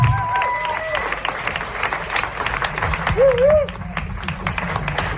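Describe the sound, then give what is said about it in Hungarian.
An audience applauds with dense, continuous clapping. Brief voices rise over the applause from time to time. “Sokkal-sokkal nagyobb tapsot érez a produkció.”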